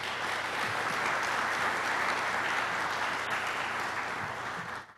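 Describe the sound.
An audience welcomes Archbishop Timothy Broglio before his talk on faith and the priesthood with steady, dense applause. The clapping stays even and loud, then tapers off at the very end.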